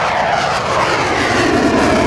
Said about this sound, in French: Et quand les deux avions sont prêts, eh bien, le premier va lâcher les freins. Voilà, c'est ce qui est en train de se passer. Et il va atteindre rapidement 250-300 km/h.